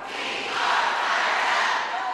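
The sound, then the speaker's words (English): Vocal crowd of teachers protesting education bills inside the state Capitol in Frankfort: a steady, dense roar of many voices shouting together, with no clear pauses. “the demonstrations continue despite assurances from lawmakers that the education bills they're protesting are all but dead. A smaller but no less vocal crowd of teachers assembled in the Capitol Thursday, making it clear they're here for the long haul.”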